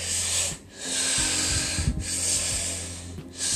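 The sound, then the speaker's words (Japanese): Deep breathing demonstrated as a calming technique before speaking in public. Long, airy breaths flow almost continuously with brief pauses, steady and fairly loud, with no talking over them. “呼吸法が多いでしょうかね。深呼吸であったりとかね”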